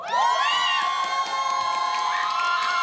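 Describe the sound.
An audience shouts and cheers for the winning team after a team contest: loud, sustained, high-pitched whoops and yells from many voices, held steady for about three seconds.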